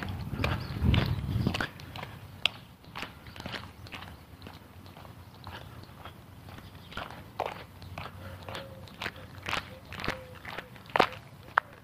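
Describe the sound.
Footsteps of a person on a long walk: many crisp, evenly spaced steps in a steady walking rhythm, faint to moderate, following a brief low rumble at the very start.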